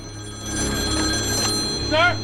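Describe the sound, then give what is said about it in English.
A telephone rings through at a police field headquarters: a warbling electronic ring with steady tonal hum, rising to one louder burst near the end over a low background murmur. “the call goes through to the police field HQ”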